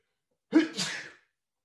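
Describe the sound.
A single sharp sneeze: a loud, abrupt burst that trails off into a breathy, hissing release, heard alone with no talking.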